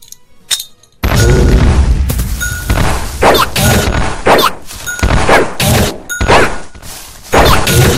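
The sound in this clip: A grenade explodes in a video game with a sudden loud blast, followed by a long stretch of heavy booming and crashing bursts that rise and fall in loudness.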